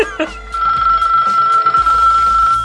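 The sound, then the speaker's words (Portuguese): A cell phone ringtone plays, a bright, steady electronic tone mixed with a recorded Portuguese woman's voice. “Então ele baixou os toques de celular da portuguesa, né? Que ela fala, atende o Telegram. Esse toque aí, toca aí.”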